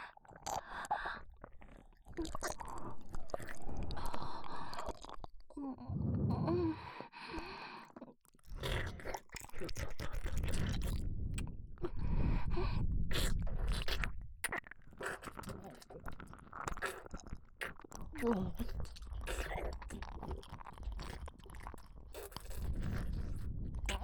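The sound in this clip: Chewing and biting food, with wet, crunchy mouth sounds repeating through most of the stretch and broken by a few short pauses, close and fairly loud, with no clear talking.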